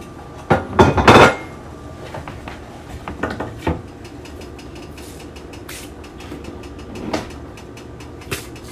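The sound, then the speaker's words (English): A metal baking pan being readied for cornbread clanks and rattles, with a cluster of loud metallic clatters near the start, then scattered lighter knocks and clicks through the rest, with one sharper clank later on. “All right, let's go ahead and get my pan ready for my cornbread.”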